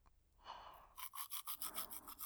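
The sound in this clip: A toothbrush scrubs teeth with faint, rapid back-and-forth strokes that settle into a quick, even rhythm of many short rasping passes.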